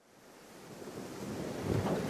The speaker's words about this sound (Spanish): La nave en el mar.